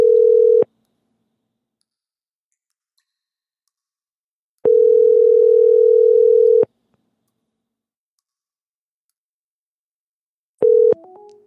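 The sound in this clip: Ringback tone on a telephone line: loud, steady tone bursts about two seconds long separated by long silent gaps. The final burst is cut short into clicks and brief shifting tones.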